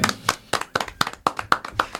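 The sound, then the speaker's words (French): Hands clapping in a steady, even rhythm, a run of sharp, bright claps spaced about a quarter second apart, moderately loud with no talk over them. “Là, on peut applaudir.”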